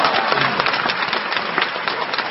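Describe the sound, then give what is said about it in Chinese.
An audience breaks into applause after a sung opera line, a thick, even wash of many clapping hands that holds steady from start to finish without fading. “城外的警催马加鞭进了城，可以鼓掌了。”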